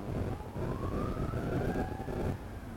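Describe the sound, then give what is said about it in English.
An ambulance siren passes outside as one long wail that rises slowly in pitch over a low traffic rumble, then cuts off shortly before the end. “that ambulance is not for any of us, I hope.”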